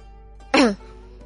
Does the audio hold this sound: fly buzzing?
no

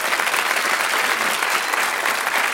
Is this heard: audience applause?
yes

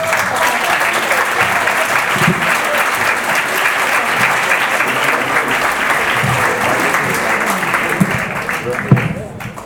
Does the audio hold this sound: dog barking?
no

